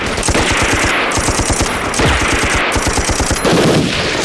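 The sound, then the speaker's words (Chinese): A heavy machine gun fires long continuous bursts of rapid, evenly spaced shots. The shots are loud and sharp and run through the whole stretch with almost no pause. “也许我们会死，但一定要炸掉惠子的重机枪。”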